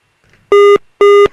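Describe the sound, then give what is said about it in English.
A telephone rings with two short, buzzy tones of equal length and steady pitch, separated by a brief gap and standing out loudly against near silence. “Maybe not. That's the phone. Hold on.”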